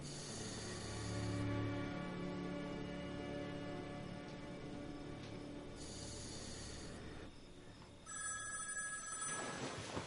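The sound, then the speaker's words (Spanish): A telephone rings at night with a faint electronic bell tone. It comes in a few separated bursts of ringing with quieter gaps between them, over a soft, steady background hiss. “De madrugada, Frankie despierta en su cama. Se levanta y coge el teléfono.”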